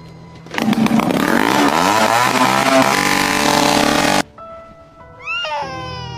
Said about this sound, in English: Bike's a little loud. Can you tone it down a bit? People in the neighborhood starting to complain.